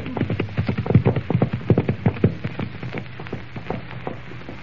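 Horses ride off with a brisk, rhythmic clip-clop of hooves, the quick beats strong at first and then growing softer and sparser.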